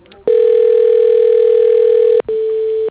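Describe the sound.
A steady telephone tone sounds while a call is placed: one long, unbroken, even tone of about two seconds, a brief break, then a shorter second tone at the same pitch.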